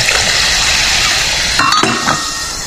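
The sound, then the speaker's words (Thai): Soda fizzes steadily as it is poured into a glass of S99 liquor, a constant bright hiss throughout, with a few brief clinks near the end. “เติม S99 ด้วยมาเบาๆนะฮะแล้วก็เติมโซดาด้วย”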